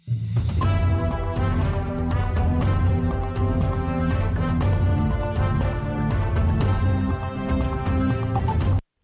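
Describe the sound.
A new radio interval-signal jingle for a Czech program plays as a loud, steady musical phrase of sustained tones and rhythmic notes, running about nine seconds before it stops abruptly.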